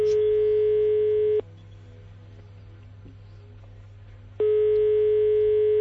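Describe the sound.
A telephone ringback tone sounds while a call is being placed: a steady, loud, even-pitched tone, then about three seconds of quiet, then the same tone again.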